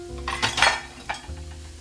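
Pots and utensils clatter while cooking: a few brief metallic clinks and scrapes over a steady hiss like sizzling food.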